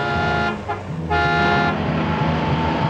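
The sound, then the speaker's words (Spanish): A car horn honks loudly on a snowy roadside. It sounds in sustained, brassy blasts with a short break between them, over the rumble of the vehicle's motor. “Llega el coche de Cruella. Frena y da marcha atrás.”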